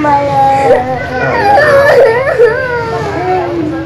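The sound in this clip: A young child cries in a leaked recording from a U.S. detention facility for migrant children, with high, wavering, sobbing wails. Adults talk over and around the crying.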